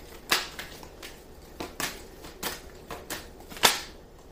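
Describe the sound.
Tarot cards being shuffled and drawn from a deck: many dry, crisp snaps and flicks at irregular intervals, quiet overall, with one sharper, louder slap near the end.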